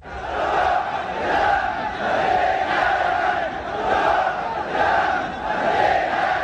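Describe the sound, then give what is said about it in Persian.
Supporters of Yemen's former president Saleh chant together at a peaceful rally in Sabaeen Square, Sanaa. The loud crowd voices rise and fall in a steady, repeating rhythm of shouted phrases. “جمع شدن حامیان صالح رئیس جمهور سابق در چهارراهی میدان سباین در صنعا”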